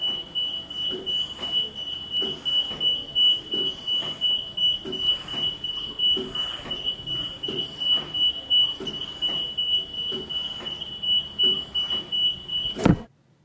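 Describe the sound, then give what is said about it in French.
Constant electronic beeping of monitors on incubators in a neonatal ward: a steady high-pitched tone runs throughout, with regular, evenly spaced beeps pulsing beneath it, ending in a sharp click. “il y a des bips partout. Et puis ces bips sont constants”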